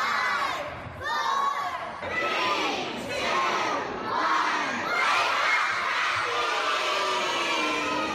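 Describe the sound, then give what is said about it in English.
Children shouting and cheering together as they wake up, a loud, sustained crowd of young voices with excited cries rising and falling throughout, no clear words. “That is the sound of children waking up.”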